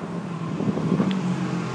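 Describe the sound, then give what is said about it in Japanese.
Strong wind blows outdoors in a steady, rumbling roar that keeps a constant loudness throughout, with no talking. “場所によってはこの例えば風がちょうどね通り抜けるような、そんな場所に関してはかなり強い風が吹いてますね。”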